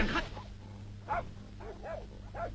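A dog barks during a traditional Chinese stage performance, giving a few short, spaced barks of moderate loudness over a low background hum.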